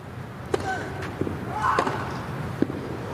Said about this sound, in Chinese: 哇，这球反拍接发球，兹维列夫接进来了，反拍直线的一记 return ace。